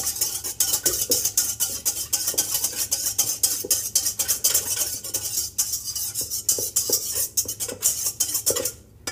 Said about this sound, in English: we gotta whisk this all together.